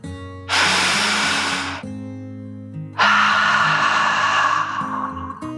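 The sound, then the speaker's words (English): Deep breath in and out voiced as a dragon in a children's story, two loud, rushing, hiss-like gusts with a short pause between, over a low steady tonal hum. “He sniffed the fresh breeze and took a deep dragon breath, in and out.”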